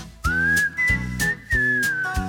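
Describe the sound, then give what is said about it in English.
Whistling along with a song: a clear, high sustained whistled melody riding over steady rhythmic music with a pulsing beat. “I'm in the mood for whistling. I'm in the mood for whistling, whistling along with you.”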